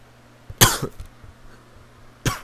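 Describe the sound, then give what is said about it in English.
Harsh coughing from a teenage boy: a sharp cough burst with a short rough tail, a pause, then another single cough, loud against a quiet background hum. “I don't know why I'm coughing so much”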